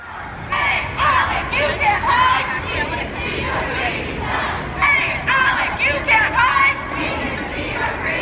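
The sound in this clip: Protesters chant outside a conservative organization's meeting in Colorado, many voices shouting together in a loud, rhythmic call that rises and falls in bursts over a steady crowd murmur.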